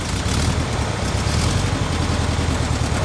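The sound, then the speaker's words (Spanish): A white convertible Volkswagen Beetle drives out of a garage onto the street with a loud, constant engine rumble mixed with broad hiss. The sound stays steady throughout, with no voices. “El joven está al volante de un escarabajo blanco descapotable que sale a la calle.”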